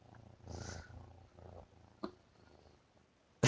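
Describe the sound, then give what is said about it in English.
A cat purring right next to the microphone, a low, soft rumble in several breath-long cycles, followed by a sharp click and a sudden loud burst of noise at the very end. “Oh, the cat's right next to the microphone.”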